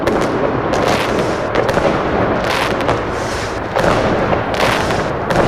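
New Year's Eve fireworks in a city square: a dense, loud, continuous barrage of crackling bangs and pops that overlap without pause, with no voices standing out.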